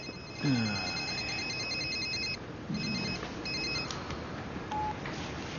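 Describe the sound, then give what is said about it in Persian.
A telephone rings with an electronic ringtone, repeating bursts of steady beeping tones with short gaps, over a low background hiss. “تلفنت زنگ میزنه.”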